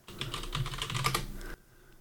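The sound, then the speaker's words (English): Rapid typing on a computer keyboard: a quick burst of many crisp keystrokes for about a second and a half, then stopping abruptly into near silence. “Access Google and type in Lunatone.”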